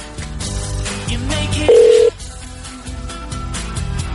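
A single steady electronic beep marks a telephone call being cut off. It sounds loudly for under half a second over a busy, cluttered background.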